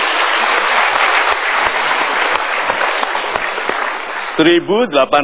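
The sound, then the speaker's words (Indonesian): Audience applause breaks out after a poll result is read out at a live talk event: dense, steady clapping for about four seconds, then a voice begins speaking as the applause fades. “Kita berikan tepuk tangan.”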